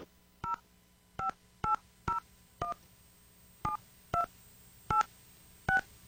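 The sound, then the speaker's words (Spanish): Touch-tone keypad beeps as a telephone number is dialed for a call: nine short dual-tone beeps at uneven intervals, each a steady paired pitch, with no talk over them. “Marcando bien ese número telefónico. Vamos a ver si no responde.”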